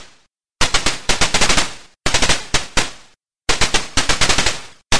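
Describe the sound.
Rapid gunfire from the 1980 Cinematronics arcade video game Armor Attack: three loud bursts of fast shots with brief silences between them, and no talk.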